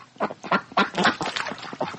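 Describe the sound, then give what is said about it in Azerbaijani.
Geese calling on a dried-up, muddy pond: many quick, nasal, quack-like honks that overlap in a busy, uneven run, loud and steady throughout with no talking. “Həyətlərindəki suyu qurumuş, lilli gölməçədə qazlar otarır.”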